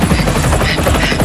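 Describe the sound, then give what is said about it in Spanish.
A helicopter in flight fills the stretch with a loud, dense, continuous whirring roar that carries a fast, rough chopping texture throughout. “voy a intentar hacer lo que pueda con el helicóptero.”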